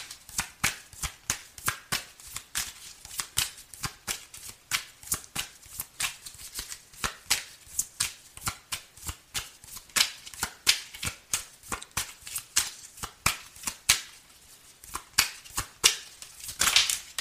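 Cards being shuffled, a deck riffled again and again in many quick crackling bursts that repeat steadily through the whole stretch, with no voices.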